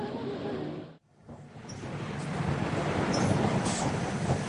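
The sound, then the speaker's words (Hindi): A train arrives at a station with a broad, noisy rumble that drops out briefly near the start, then builds and holds loud through the end, with no talk over it. “देखो train आ चुकी है।”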